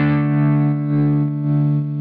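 A wave shaper distortion effect set to a sine-wave shape thickens a sustained, harmonically rich low tone. The sound is loud and intense, holding steady with slight swells and dips.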